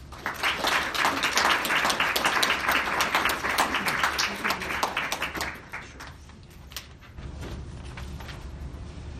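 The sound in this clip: Audience applause welcoming a speaker to the podium at an academic talk on a curriculum debate. Dense, steady clapping holds for about six seconds, then thins and fades into a low murmur of room noise.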